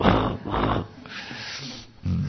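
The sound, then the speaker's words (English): A voice imitates aggressive dogs snarling, producing rough, breathy growls in short loud bursts broken by a quieter, rasping stretch. “And do you know, all these dogs were showing their two teeth, making sounds like”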